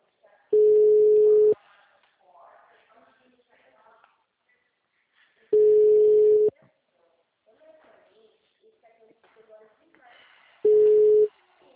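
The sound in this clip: A telephone line tone after a dropped call: three steady beeps at a fixed mid pitch, each about a second long and spaced roughly five seconds apart, with faint voices and noise in the gaps.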